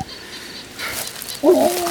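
An injured dog yelps as it is lifted into a wheelbarrow outdoors. The single short, wavering cry flares up loudly, then trails into a thin, steady whine over a soft rustling background.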